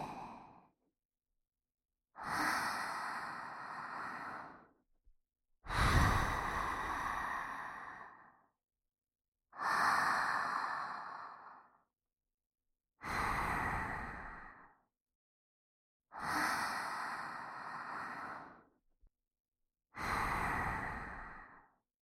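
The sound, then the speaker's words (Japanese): Slow, deep human breathing with inhaling and exhaling: six long, breathy, airy breaths of about two to three seconds each, separated by short silences, with no talk. “深呼吸するよ。吸って、吐いて。”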